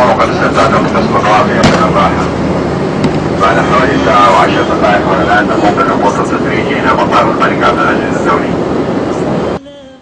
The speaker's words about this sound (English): Let's go get back in the seats because it's time to get started now. We'll start our descent and be landing in Jeddah.